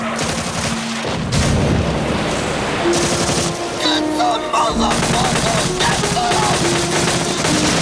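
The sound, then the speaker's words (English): Machine gun fire sprays across a riverbank in a Vietnam War battle scene: loud, rapid bursts of gunfire packed tightly together and sustained through the whole stretch, with heavy booming underneath. “Nassarv sprays machine gun fire across the riverbank, hitting two men who are sheltering behind trees.”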